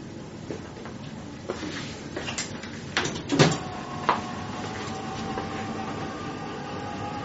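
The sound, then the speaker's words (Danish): A bedpan washer door is shut, giving a few clunks and a short mechanical rattle that peak near the middle. Quieter knocks come before it and a low steady hum follows. No one speaks. “Så lukker jeg bækkenkogeren igen.”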